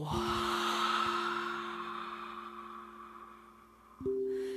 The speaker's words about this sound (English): Inhale. Hold it just for a moment. One more moment. Audible exhale. Let it go.